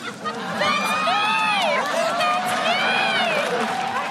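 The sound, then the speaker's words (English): An arena crowd reacts loudly as a fan steps up for a $10,000 free-throw shot in the Basket O' Cash contest. Massed voices swoop up and down in pitch, with cheers and whoops blending into the din. “Did you guys hear the audience? Like, they know where this is going.”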